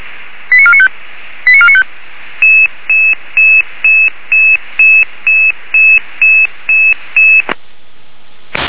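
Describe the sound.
Emergency dispatch alerting tones from a rescue control centre: two short warbling multi-tone bursts, then a long, evenly spaced run of identical high beeps, ending in a brief crackle of static.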